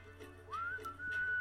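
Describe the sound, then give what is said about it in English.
A person attempting to whistle produces a thin, faint tone that slides upward and then holds steady, breaking off briefly before resuming at a similar pitch. “Can't whistle, I'm sorry.”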